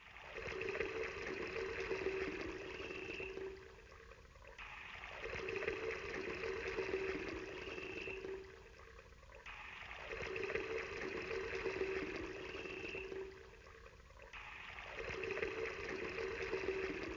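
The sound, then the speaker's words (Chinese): Water poured from large buckets onto an altar piled with wood, four bucketfuls in turn: a faint, continuous rushing splash that swells and dips in four similar waves. “以利亚命令第三次泼了4大桶水在祭物上。”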